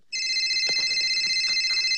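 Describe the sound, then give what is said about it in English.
A phone rings with a loud, steady, high electronic tone that starts abruptly and keeps going with a slight pulsing, while faint low thuds sit underneath. “I think your phone is ringing.”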